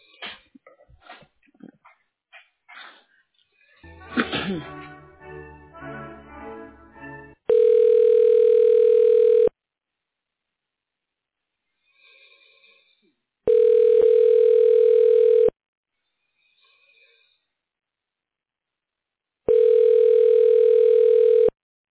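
Three long, steady telephone line tones, each about two seconds at one unchanging pitch, sound during a call transfer to a supervisor at an orthopedic office. Silent gaps separate them, and a stretch of other muffled sounds comes first.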